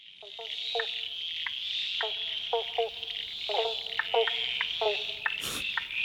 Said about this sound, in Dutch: Het geluid van de Oosterse banjo-kikker.